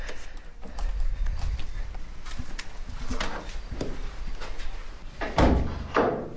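A church door being opened: a few scattered knocks and clunks, with the loudest, heaviest thud near the end, set against a low, uneven background.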